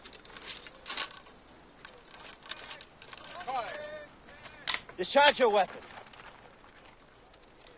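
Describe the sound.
A few sharp gunshots crack from a discharged weapon, sudden isolated bangs set among ongoing speech and shouted voices.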